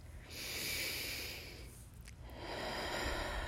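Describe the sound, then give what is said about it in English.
Slow, deep breath drawn in and let out as two long, soft, airy swells of breath noise separated by a short pause, faint and with no talk. “take that deep breath, do it again. One more time.”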